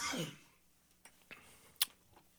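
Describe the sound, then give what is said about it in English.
Coughing after choking on spit: one harsh, breathy cough burst at the start, then a few faint, short clicks and throat sounds in near quiet. “I don't know if I choked on my own spit or I'm just talking too much tonight.”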